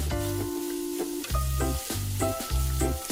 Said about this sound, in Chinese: 接着将虾放进锅中煎制，随后放入青红椒、葱段。